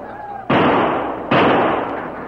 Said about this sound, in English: Lieutenant Wade issued a terse command to the troopers. Fire at will, but conserve your ammunition. Make every shot count.